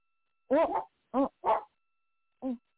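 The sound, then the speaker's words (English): A dog barks four times: short, fairly loud, tonal yaps, the first slightly longer. Two come close together in the middle, then a longer pause falls before the last bark. “Let me mute my phone. The dog going to go crazy.”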